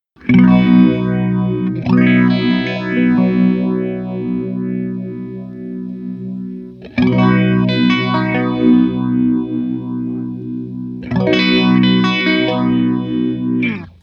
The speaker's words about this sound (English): And I like the fact that it's stereo, because phasers, I don't think I've ever owned a stereo phaser. I've never even heard of it until they got it for me. And my God, it's just so juicy. And that's the vintage setting. Here's the modern setting,